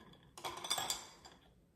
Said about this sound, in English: Stir it around.